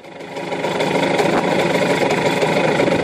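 Engine of a Fortschritt E930 driving in second gear: a loud, continuous, rough drone that swells in the first half second, then holds steady with a throbbing vibration and no voices.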